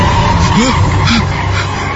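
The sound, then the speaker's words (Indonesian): Car pulling out of a mud hole: a loud, steady engine roar with brief whining squeals as the tires spin. “kedengar suara mobil. Ya, sepertinya mobilku sudah berhasil keluar dari kubangan.”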